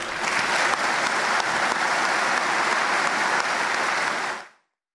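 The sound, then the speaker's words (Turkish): Audience in a hall applauding the families of veterans at a Veterans Day ceremony: loud, dense, sustained clapping that holds steady for over four seconds, then cuts off abruptly to silence. “Şimdi hep birlikte bu tarihi mücadelenin sessiz kahramanları olan ailelerimizi en güçlü şekilde alkışlayalım lütfen.”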